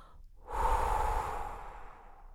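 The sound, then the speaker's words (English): A slow belly-breath exhale from a four-count breathing exercise: one soft, breathy whoosh that swells quickly, holds steady, then gently fades over about two seconds, with no talking. “The exhale on the chest breathing is on the sh, and the exhale on the belly breath is”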